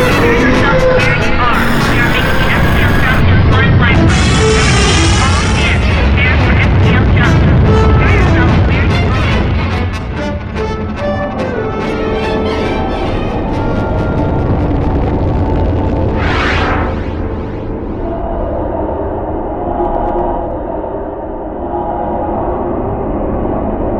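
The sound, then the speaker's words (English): A spaceship's faster-than-light jump effect: a long, loud, dense roar of rumbling and rushing noise with shifting whooshing layers, sustained throughout and easing slightly in the second half. “We are making the FTL jump in 1 micron. I repeat, all hands, prepare for FTL jump.”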